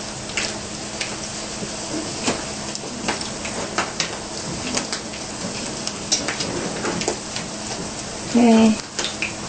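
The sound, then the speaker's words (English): Sizzling from a coconut sweet pressed flat as it fries in a pan: a steady hiss with scattered crackles throughout, and a brief louder knock or scrape near the end. “press your Coco Delight down a bit to make it flatten while frying. Yeah. Just press it down a little bit. After you put it in the pan, you press it down.”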